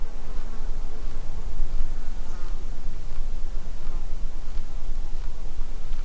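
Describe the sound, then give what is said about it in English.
Insects buzzing as they fly past the microphones on the quiet, windless summit of Mount Tecumseh, a soft droning hum over a steady, even hiss with no other sounds. “Not absolute silence, Wilkes says, but a way toward it. Things like insects will oblige and fly by your mics.”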